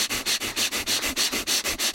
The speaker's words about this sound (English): It's a simple bellows breath, and I'll just demonstrate it without talking, and then you can see what it is.